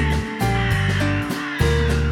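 Crows caw in a few harsh, raspy, overlapping calls that follow one another with hardly a pause, loud and clear with no other sound.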